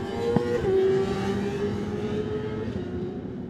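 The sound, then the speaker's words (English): Yamaha R6 racing motorcycle pulling away from the start line at a race, a loud steady engine roar with a sharp snap near the start, then a sustained droning tone that holds for the rest of the moment. “So Brian gets away on his R6 machine.”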